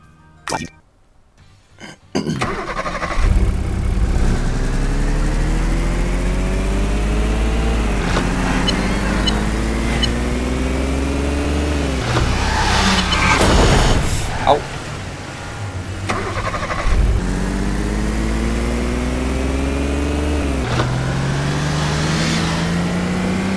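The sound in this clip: Car engine from a racing video game where the player weaves closely past traffic for points. The loud, sustained motor revs up again and again with each gear, its pitch climbing then dropping back, after a brief quiet start.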